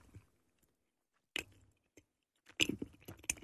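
Chewing on an After Eight mint chocolate: after a quiet stretch, a few short bursts of biting and moist chewing, growing busier and louder toward the end.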